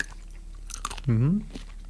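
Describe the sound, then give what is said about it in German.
A short, crisp crunch as teeth bite into a small red chili pepper, then a brief hummed vocal sound from the eater. “Ich würde mal in so eine rote beißen.”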